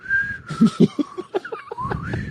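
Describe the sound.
A person whistles a wavering, high tune, imitating someone whistling while walking, with short voiced bursts mixed in under the steady whistle.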